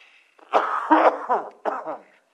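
Coughing from someone with something caught in the throat: a few harsh, throaty coughs and clearing rasps in quick succession, fairly loud and without speech.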